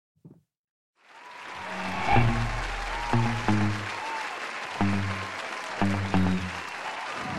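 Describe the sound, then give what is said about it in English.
Fake applause sound effect: a brief blip, a pause, then a steady wash of crowd clapping that rises and carries on for several seconds, with a few deep thumps over it. “in some fake applause sound effects so that you can get the full real simulated experience of our amazing audience that was live with us.”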